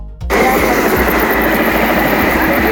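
Aircraft, apparently a helicopter, taking off near a large warehouse fire: a loud, steady engine roar that comes in suddenly after a brief moment of quiet and holds at full strength, with faint low pulses underneath.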